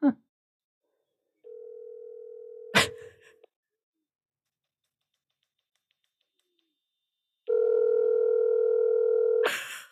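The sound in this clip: A telephone ringing tone on a call: two long, steady, low tones separated by a silent gap of several seconds, with a brief click near the first tone. The second tone is louder and richer.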